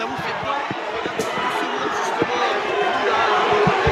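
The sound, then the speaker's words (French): Crowd of fans welcoming a team on arrival, a dense mix of chatter, shouts and cheers at a steady, fairly loud level, with people talking over it. “Vous voyez l'accueil qu'il y a avec tous les fans, on est content d'être là.”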